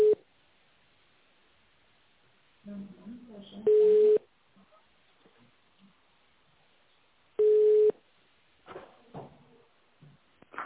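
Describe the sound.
Telephone line tones while an office call is being transferred, with a brief tone at the start and then two longer steady beeps several seconds apart, separated by quiet stretches of faint muffled sounds on the line.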